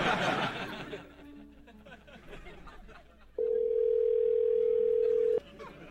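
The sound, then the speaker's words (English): A telephone call signal sounds as one steady, sustained tone lasting about two seconds, after a stretch of quieter murmuring voices. “There's a call ringing.”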